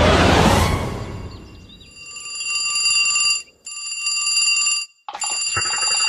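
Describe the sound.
A telephone rings loudly after a brief burst of noise, its steady electronic ringing coming in three long bursts separated by short gaps.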